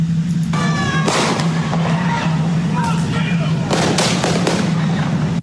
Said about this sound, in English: At that moment, the guy with the red shirt around his head is shot in the head.